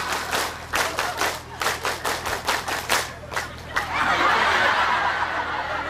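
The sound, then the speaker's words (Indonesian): A group performs the Indonesian scout clap (tepuk pramuka) in rhythmic bursts of claps, grouped with short pauses, then breaks into a sustained stretch of continuous applause. “Tepuk satu. Tepuk dua. Tepuk tiga. Tepuk pramuka.”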